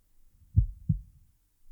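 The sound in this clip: A heartbeat: two soft, deep thumps in quick succession, a single lub-dub, with faint low rumble before and after.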